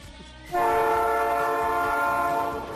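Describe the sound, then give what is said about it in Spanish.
A train comes out of a tunnel sounding its horn: a loud, sustained multi-tone blast that starts abruptly over a low rumble and holds steady to the end. “Me marcho, que ya está saliendo el tren del túnel.”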